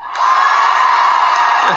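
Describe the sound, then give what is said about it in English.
A large crowd of tens of thousands cheers at an outdoor pro-life rally, a loud, sustained roar of many voices with whoops and shouts that swells in quickly and holds steady throughout. “This is one happy crowd. I want to welcome tens of thousands. This is a tremendous turnout.”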